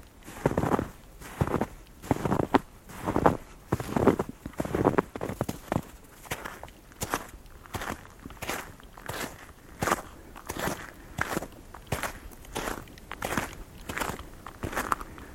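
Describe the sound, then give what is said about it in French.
Footsteps crunch along a snowplowed forest track that is slightly icy, a long steady series of firm, even steps at a walking pace, with no voices. “Cela va s'entendre tout de suite, quelques pas.”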